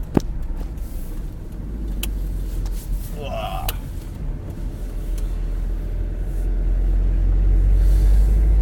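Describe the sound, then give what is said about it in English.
Steady low engine rumble from a large vehicle being driven, a dense, continuous drone that grows slightly louder toward the end. “Oh, it's sometimes quite hard work when you're driving a vehicle this big.”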